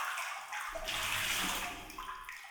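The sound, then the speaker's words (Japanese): Water sloshing and splashing as feet are lifted out of a basin of hot water before a foot massage. The sound is a continuous, moderately loud stream of watery movement and dripping, with no talking. “次、足のマッサージしますから、お湯から出してください。”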